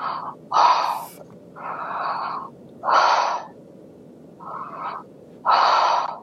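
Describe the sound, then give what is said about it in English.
Heavy breathing in and out: six loud, rasping breaths in a steady rhythm, each rising and fading over a constant low hiss with no talk. “breathe in and out 5 times heavily”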